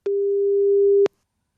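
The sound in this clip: A telephone line gives one ringing tone as a call goes through, a pure steady mid-pitched beep lasting about a second and cutting off sharply into silence.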